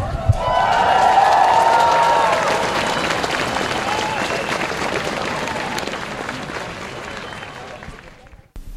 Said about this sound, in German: So klang es am 5. Dezember 2025 beim Schulstreik hier in Erfurt.